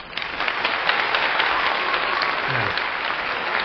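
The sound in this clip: A studio audience applauds in a dense, even patter of many clapping hands that holds at a steady moderate level throughout.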